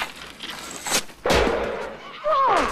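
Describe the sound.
A hockey shot called the J shot: a sharp crack of stick against puck rings out near the middle, standing out over a noisy background.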